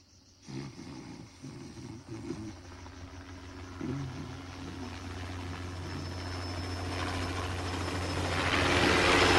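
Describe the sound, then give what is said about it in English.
Helicopter flying overhead: a broad, churning rotor-and-engine roar that builds steadily louder toward the end, with no voices. “A chopper flies over the two of them.”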